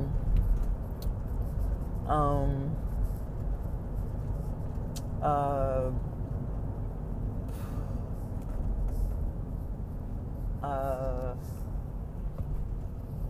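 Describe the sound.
Continuous low road rumble inside a moving car, an even, unbroken drone under a man who talks in short, scattered bursts.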